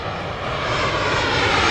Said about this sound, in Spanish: Hemos cogido un avión, aterrizado en una nueva ciudad